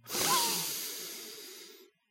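A single slow breath drawn in, an airy, hissing rush of air that swells quickly, then holds steady and fades out after about two seconds, heard alone with no talking.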